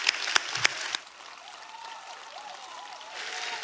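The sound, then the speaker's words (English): Audience applause welcoming a pastor emeritus at a church service: a few sharp claps at the start, then a steady, fairly soft wash of clapping that swells slightly near the end. “So, friends, would you please put your hands together and let's welcome our pastor emeritus, Dr. Mark Walker.”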